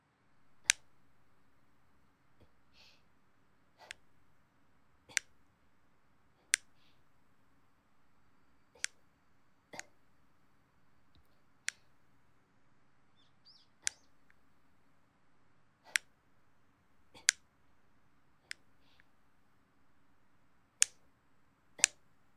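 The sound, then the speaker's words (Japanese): Nail clippers snipping nails: over a dozen crisp, sharp clicks, spaced a second or two apart in fairly regular rhythm against a quiet background. “爪を切るパチンパチンっていう音”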